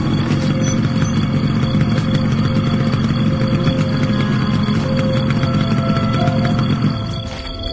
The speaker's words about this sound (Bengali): সজীব স্যারের হুন্ডার শব্দ মনে হইতেছে?